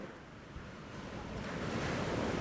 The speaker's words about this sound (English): Wow! Look at the big waves!